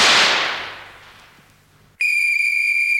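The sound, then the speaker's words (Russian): A rifle gunshot opens with a loud, hissing burst that rings on and slowly dies away over about two seconds. Then a steady, high-pitched whistling tone cuts in abruptly. “Кто стрелял, в кого стрелял, по какому случаю?”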